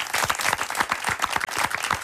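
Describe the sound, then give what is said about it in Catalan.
An audience applauds at the close of a wine fair tasting in Penedès, producing quick, crisp, densely overlapping handclaps at a fairly even loudness throughout. “Acabem amb un aplaudiment.”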